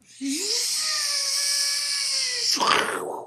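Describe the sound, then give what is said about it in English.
A voice imitates a drill boring through a cave with a sustained, buzzing whine that rises at the start and then holds steady, ending in a short, noisy vocal crash as the imagined drill breaks. “Like, the drill was good. The crashing sound was not great. That was the drill breaking.”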